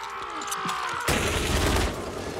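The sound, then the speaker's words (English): A machine gun firing in a film scene: a sudden dense burst of gunfire cuts in over a quieter tonal background and rattles on for under a second before easing. “nobody knows or suspects that anything is going on until they hear the machine gun.”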